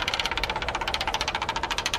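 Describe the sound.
A prize wheel spins with rapid, evenly spaced ticking. Many sharp clicks run steadily and fairly loudly with no voices over them.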